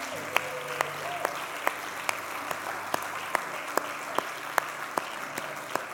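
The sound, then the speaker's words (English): Applause for a welcome team, with one crisp clap repeating in an even, steady rhythm many times over softer, continuous clapping underneath. “And could we give a hand for the welcome team?”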